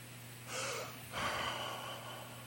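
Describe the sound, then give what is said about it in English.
A person takes a deep gasping breath to show compensating for low oxygen: a short, sharp rasping inhale, then a longer, breathy release. The breath is faint and stands alone, without talk. “where it's a really deep breath and you release.”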